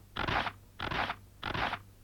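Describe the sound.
Scissors cut firm paper in three crisp, evenly spaced strokes, each a short rasping snip of similar loudness, with no voices.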